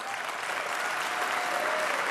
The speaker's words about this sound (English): I think that's applause worthy.